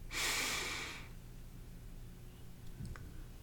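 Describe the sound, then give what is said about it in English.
A person breathing in: a single soft, airy hiss lasting about a second, followed by near silence with a faint brief sound near the end. “Breathe in.”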